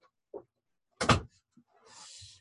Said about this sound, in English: Just had to close my door.